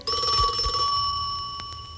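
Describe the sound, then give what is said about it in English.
A telephone rings with a steady, bright electronic tone that holds loud and unbroken for about two seconds. A few soft low thumps sit underneath it. “Just remember to answer your telephone like this.”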